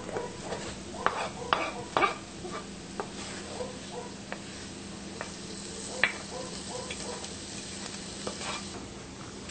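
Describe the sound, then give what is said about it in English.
Previously sautéed onions, shallot and garlic sizzle in a hot pan as they are stirred in with browned food for a sauce, a steady soft crackle broken by a few sharp scraping clicks of the utensil. “So what I'm going to do is add my onions, shallot, and garlic that we sauteed previously.”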